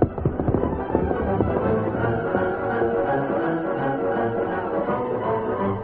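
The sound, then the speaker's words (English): Hoofbeats of a horse galloping away in a western drama: a fast, steady clatter that runs throughout and is sharpest at the start. “As the Lone Ranger galloped away, Ham Harker's party approached the scene from a different direction.”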